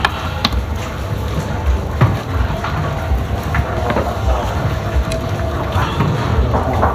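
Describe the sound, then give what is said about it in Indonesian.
Chicken sizzles and crackles as it grills over charcoal, a steady dense hiss dotted with scattered sharp pops throughout. “Ini langsung dipanggang di sini ya. Oke, ini langsung dipanggang di sini.”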